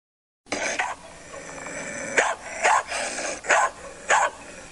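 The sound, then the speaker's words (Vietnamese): Two police dogs bark loudly while running, with a few sharp bursts of barking at irregular intervals over steady background noise. “Vừa chạy, 2 con chó vừa sủa vang lên inh ỏi.”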